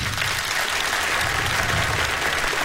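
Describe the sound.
Concert audience applauding a guitarist with dense, steady clapping that holds at an even, fairly loud level throughout, with no voices over it.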